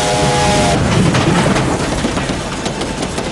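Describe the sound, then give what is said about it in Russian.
A train rushes past with wagons carrying military equipment, a loud, dense rumbling roar with a steady clattering texture that holds throughout and eases only slightly toward the end. “Приближается поезд. Мелькают огни, проносятся вагоны с боевой техникой.”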